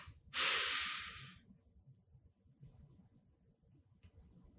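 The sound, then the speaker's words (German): A single deep breath drawn into the belly during a guided breathing exercise, a loud breathy rush lasting about a second, followed by near silence with a faint low rumble. “Noch einen tiefen Atemzug gemeinsam in den Bauch, tief einatmen.”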